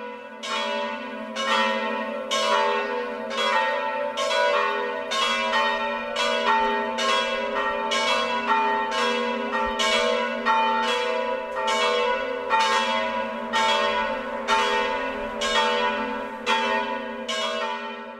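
Church bells ring out from a church tower in a long run of steady, evenly spaced strikes, each a bright, rich metallic tone layered over a sustained hum, with no voices.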